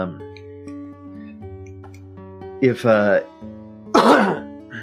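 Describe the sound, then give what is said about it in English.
Coughing during a fantasy hunting role-play game: a couple of harsh, throaty bursts over a steady tonal background. “I'm coughing a lot tonight”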